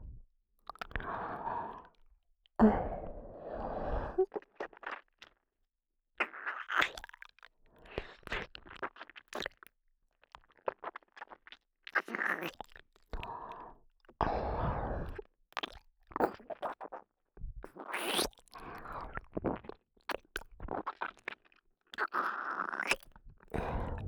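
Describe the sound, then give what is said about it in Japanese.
Someone bites and chews an ear-shaped snack, making many soft crunches and wet mouth clicks. The sounds come in irregular bursts separated by brief pauses, and the whole is quiet throughout. “お耳は、どんな味がするのかな。いただきます。”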